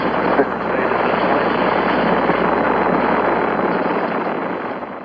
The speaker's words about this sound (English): We have commit and we have liftoff at 2:13. The Saturn V building up to 7.6 million pounds of thrust, and it is clear the tower.